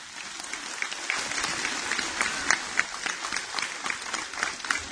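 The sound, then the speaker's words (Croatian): Applause from an audience at a public address about a church in Podgorica, a dense continuous clatter of many hands clapping with sharp irregular peaks, loud and steady throughout. “Vaš aplauz to potvrđuje.”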